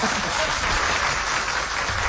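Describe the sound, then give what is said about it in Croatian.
Audience applause at a live show celebrating a singer's long solo career: a steady, dense wash of clapping that holds at an even level for the whole stretch, with no voices standing out. “samo plješćite”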